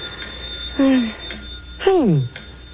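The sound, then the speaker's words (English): Telephone ringing late at night, a steady high electronic ring running throughout while a voice speaks over it. “Hey, that's a phone. Who could be calling this late?”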